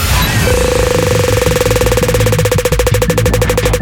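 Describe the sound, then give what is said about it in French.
Rapid, even ticking of a game-show prize wheel being spun, a dense run of sharp clicks that starts just after the opening and continues to the end over a steady held tone and low background music. “Mickaël, on va lancer la roue et tu me dis stop dès que t'as envie de l'arrêter”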